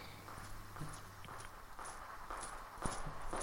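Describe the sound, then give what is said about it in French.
High-heeled footsteps clicking on a school floor, a faint, steady series of sharp heel taps at an even walking pace, with no voices. “il y a souvent ses talons qui claquent et ses bijoux qui s'entrechoquent”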